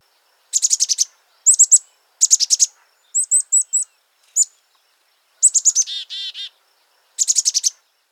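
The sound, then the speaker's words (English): A chickadee repeats only the chicka part of its call: many short bursts of rapid, high, chirpy notes, sung alone in clusters separated by brief pauses. “Chickadees can break this call up into parts. At least, that's what it sounds like to me. So for example, here is just the chicka part.”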